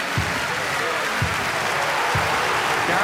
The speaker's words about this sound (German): Jubel für den Sieger. Applaus! Applaus!